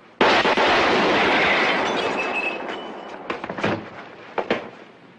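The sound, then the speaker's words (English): A single loud gunshot from a driver firing a gun: a sharp crack right at the start, then a long, slowly fading roar, followed by a few faint thumps and knocks. “Bam! The driver shoots Glasses dead as he's carrying a gun himself.”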